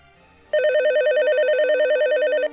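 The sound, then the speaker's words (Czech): A video call ringtone: a loud electronic warbling tone that flips rapidly and evenly between two pitches, starting and stopping abruptly after about two seconds. “Zavolal jí tedy alespoň pomocí videohovoru.”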